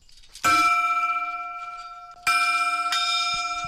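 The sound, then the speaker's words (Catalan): A hermitage bell is struck by hand with its clapper a few times; each clear, metallic strike rings on as a steady, slowly fading tone. No voices are heard. “Doncs vinga, ho fem, toquem la campana, el batall o com ho diguem, sí? Endavant, vinga. Tirem.”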